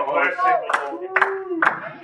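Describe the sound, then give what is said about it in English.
Sparse hand claps from a church audience, a few sharp, evenly spaced claps over a man speaking in a raised, drawn-out voice. “I got a few hand claps.”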